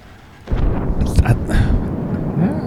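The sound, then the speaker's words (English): Bombs explode in the video game Shark Attack: a sudden deep booming rumble breaks in after a quiet start and keeps rolling loudly, with further swells of blast noise. “I think we're being bombed. I don't know if it was the shark thing or if it's just the fact that I'm here, but I am definitely getting bombed upon.”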